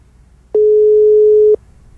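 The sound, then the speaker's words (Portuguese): A telephone ringing tone on a call: a single steady, clear beep lasting about one second, alone over faint low hum. “Tá chamando de novo.”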